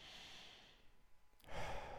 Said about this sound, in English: Now, go ahead and breathe in through your nose, out through your mouth.